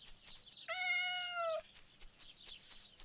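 A single drawn-out cat meow from a cat in the bushes in front of a farmhouse, steady and clear, standing alone above quiet background noise before and after.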